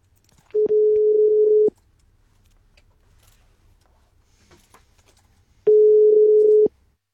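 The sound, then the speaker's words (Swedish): Telephone ringback tone as a radio studio calls a listener: two long, steady, mid-pitched tones, each about a second long, separated by a pause of several seconds. No one speaks. “Ska ta och ringa upp Christer. Ska vi se om han svarar.”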